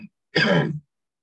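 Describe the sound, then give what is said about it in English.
A single rasping cough, about half a second long and fairly quiet, stands alone between stretches of silence. “Sorry, I'm coughing.”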